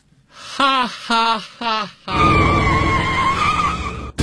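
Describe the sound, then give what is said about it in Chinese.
A car skids with a long, loud tire screech lasting about two seconds before ending in an abrupt impact as it hits a person. Three short vocal cries come first. “我刚出门就让汽车给撞了”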